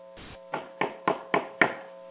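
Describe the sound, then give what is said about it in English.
Knuckles rap on the front door of a nephew's house: five firm, evenly spaced knocks, alone over a faint steady hum. “He must have passed that door a dozen times before he had the courage to go up and knock.”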